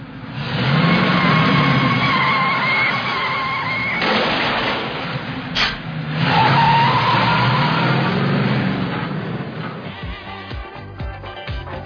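Car driving hard, with a sustained roaring engine and skidding tires that rise and surge over a long stretch, then give way to a few scattered knocks and thumps.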